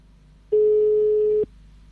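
A single steady telephone line tone during a phone call: a flat, mid-pitched buzzy beep lasting about a second, starting and stopping abruptly over a faint low hum.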